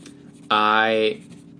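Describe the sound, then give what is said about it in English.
Squeaky writing at a dining room table: one sustained, high, tonal squeal lasting just over half a second, rising loudly out of a quiet background and stopping abruptly. “I'll wait. No. Why don't you just keep writing?”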